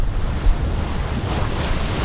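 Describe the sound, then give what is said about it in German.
Indian Ocean waves break against a steep cliff on the Kenyan coast: a continuous loud rumbling surge of surf mixed with rushing wind noise, with no voices. “Die Wellen des Indischen Ozeans schlagen gegen eine steile Felswand.”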